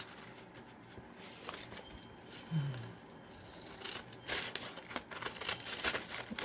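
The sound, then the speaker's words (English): Scissors cut through folded paper along a marked line, giving soft, faint crisp snips that grow denser and more frequent toward the end. “Okay, let's just try cutting one side. I'm going to follow this line.”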